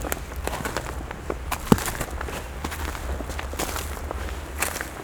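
Footsteps crunch along an icy trail in a steady run of crisp, crackling steps. One sharper, louder crack stands out near the middle, and no voices are heard.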